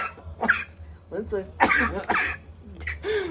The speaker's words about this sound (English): once I've got that cough in my throat